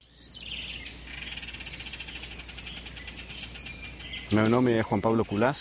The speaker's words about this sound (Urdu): آئیے ان کے ساتھ پرندوں کے دیس جنگل چلتے ہیں، اور یہ کہانی ایک صوتی جھلک سے شروع ہوتی ہے۔